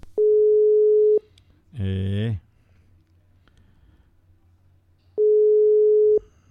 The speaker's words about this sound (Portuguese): Caiu a ligação. Deixa eu pegar aqui. Caiu a ligação aqui.